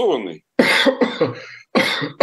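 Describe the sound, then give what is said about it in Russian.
A man coughs in a short fit: several harsh, throaty bursts with brief pauses between them and a touch of throat clearing, loud and on their own. “Извините, я даже закашлялся”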